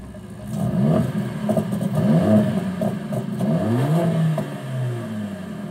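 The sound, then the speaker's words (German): A Mercedes-AMG high-performance engine revs in a few sharp blips, its deep note sweeping up and falling back each time over a steady idle rumble, with no voices. “Ein Hochleistungsaggregat, das mit effizienter Kraftentwicklung und sportlichem Sound begeistert. Bei Mercedes AMG gibt es sogar Soundkostproben für die Ohren.”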